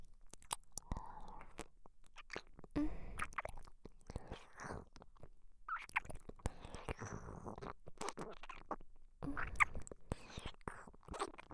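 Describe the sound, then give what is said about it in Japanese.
Close, quiet chewing and biting into a thigh: soft, wet mouth sounds with scattered crunchy bites and small clicks, faint and irregular throughout. “さっきあなたが出してくれたこの太ももから失礼して、いただきます。”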